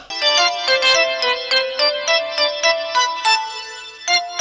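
A telephone rings with an electronic tone: many short, high, chirping beeps in a steady repeating pattern, fairly loud and alone.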